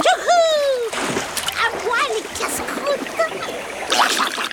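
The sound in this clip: A piranha splashes back into river water, with wet splashing and sloshing alongside bright, sliding whistle-like tones that run through the whole passage.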